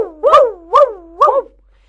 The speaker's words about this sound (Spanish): Y el perro hace así.